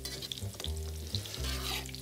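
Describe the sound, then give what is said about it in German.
Cooked food being coarsely mashed with a hand masher, leaving some texture rather than a purée. Soft, squelching pushes and scrapes come in a few uneven strokes over a low steady hum, with no talking. “Ich gebe dir mal einen Stampfer. Ja. Also ich will jetzt kein Püree, so ein bisschen Struktur soll noch drin sein. Ja, gerne. Aber das mal so grob durchstampft.”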